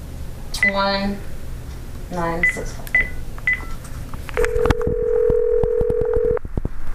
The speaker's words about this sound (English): You have to dial it right away. 871.